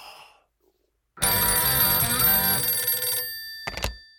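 A telephone rings for an incoming call with one loud, bright, trilling ring of about two seconds, then a brief shorter burst, with no voices.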